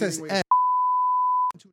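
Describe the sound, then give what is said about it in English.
A censor beep covering a word about a contest prize: one steady, piercing electronic tone held for about a second. It cuts in right after speech, and a brief fragment of voice follows. “We'll be giving away a beep. Just like the big game, you can't talk about it. Just like the big game. We'll beep that out.”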